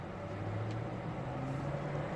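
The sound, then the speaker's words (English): Low idling rumble of cars stuck in a bad morning traffic jam, a steady engine hum with a faint droning tone held throughout and no talk. “I'm out here this morning on the way to work, and I'm stuck in a pretty bad traffic jam.”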